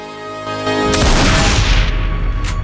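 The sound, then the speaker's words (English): A single loud shotgun blast in a film scene cuts in at about one second over a sustained musical tone, then spreads into a long, heavy rumbling decay. “Reinhardt watches him and takes aim with his shotgun.”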